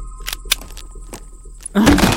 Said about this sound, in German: Ich mach jetzt die Tür auf.